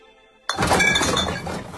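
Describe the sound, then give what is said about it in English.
Glass drink containers collected for recycling clink and clatter together. The sound starts abruptly with a loud crash and continues as a sustained, dense jangling rattle. “That's the sound of change adding up. Recycle Rewards gives you 10 cents for every eligible container you return.”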